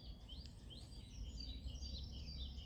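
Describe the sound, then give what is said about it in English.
Birdsong in marshland on a bright spring morning. Faint, scattered chirps and thin whistling calls repeat over a steady low background rumble, with no voices. “on a bright spring morning, surrounded by birdsong.”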